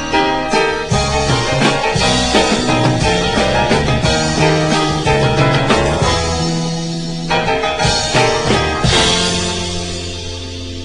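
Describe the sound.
A song with dense instrumentation and regular rhythmic accents plays loud, then gradually fades toward the end.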